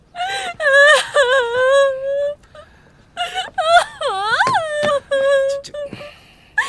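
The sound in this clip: A woman cries and wails in long, high-pitched, drawn-out sobs. They come in two loud bursts separated by a short lull, and some cries bend sharply up and down in pitch.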